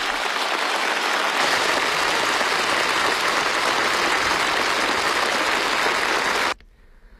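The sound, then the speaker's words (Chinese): Prolonged applause fills a meeting hall at a national political conference after an election result. A dense, steady roar of clapping swells in the opening seconds and then stops abruptly near the end. “全场响起长时间的掌声。”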